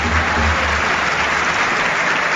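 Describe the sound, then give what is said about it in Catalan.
Audience applause at a professional basketball game as a substitute enters. A dense, even clatter of clapping holds at a loud, steady level for a couple of seconds. “Aplaudiments per Oriol Paulí.”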